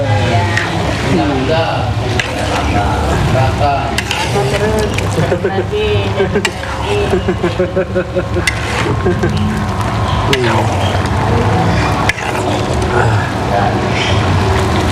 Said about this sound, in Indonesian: Coba, Mbak, aduknya. Banyak yang aduk.